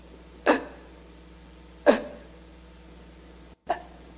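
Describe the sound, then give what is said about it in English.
A voice imitating labored gasping for air, as in a struggle to breathe. Three short, sharp gasps come well apart, each a quick burst that trails off, with no words. “I'll just try to describe to you, I'll show you how I had to breathe. It was like this. I had to go...”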